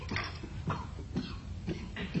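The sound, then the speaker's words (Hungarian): Coughing from a person with a persistent cough of two years, coming as a series of about five rough, breathy bursts in quick succession, fairly loud and alone. “És nagyon köhögsz az utóbbi napokban.”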